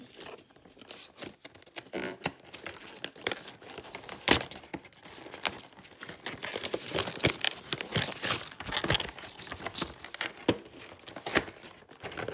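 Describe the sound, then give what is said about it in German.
Packaging being torn open by hand, a stubborn wrapper giving many quiet crinkling and ripping crackles in irregular bursts, no voices. “die geht halt so gar nicht auf. Das ist halt blöd, dass ich jetzt da reißen muss”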